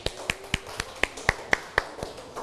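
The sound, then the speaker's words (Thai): Children in a classroom clap for a classmate in a crisp, unison rhythm: nine sharp, evenly spaced claps at a steady pace, each short and bright, with quiet gaps between them. “เยี่ยมมากอ่ะปรบมือให้เพื่อนหน่อย”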